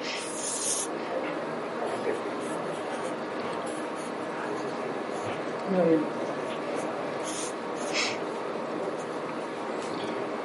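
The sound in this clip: A pen draws on paper with a soft, scratchy rasp of uneven strokes, heard beneath people talking in Spanish throughout.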